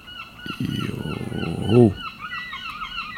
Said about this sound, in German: Grüße von den Möwen hier. Wollte sich auch nochmal kurz melden.